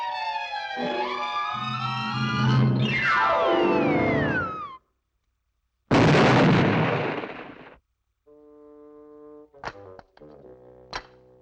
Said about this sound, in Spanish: Estuche de cometa gigante marca Acme. Una bomba